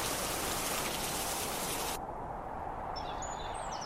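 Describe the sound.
A rain shower falls on a hot-air balloon basket, a dense, steady hiss of pattering drops that grows thinner and softer in its top end partway through.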